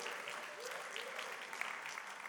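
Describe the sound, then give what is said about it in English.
Audience applause at a Father's Day church service honoring the fathers present: dense, steady clapping from a crowd that holds an even level throughout without fading. “Let's give our dads a huge round of applause.”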